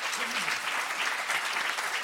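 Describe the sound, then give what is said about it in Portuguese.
Studio audience applause breaking out at the mention of a popular-music songwriter: a dense, steady clatter of many hands that fills the whole two seconds at an even level, with a faint voice briefly beneath it. “Falou em Hélio Sindor, a auditória aplaudiu, hein?”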